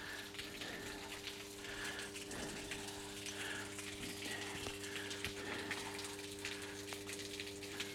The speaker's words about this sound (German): Ja, hier ist ein Trafohäuschen und direkt daneben ist ein Wasserbehälter. Dieser Wasserbehälter ist etwas undicht an der Stelle, wo